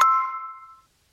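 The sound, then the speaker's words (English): A language-learning app plays its correct-answer chime: a single bright, clear ding that rings out alone and fades to silence in under a second. “when you get an answer right in Babbel, there's this satisfying sound. Listen to this.”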